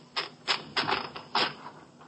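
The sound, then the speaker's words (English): A typewriter typing a repeated phrase: a few uneven, sharp key clacks with brief pauses between strokes, fairly faint. “You are typing the same phrase.”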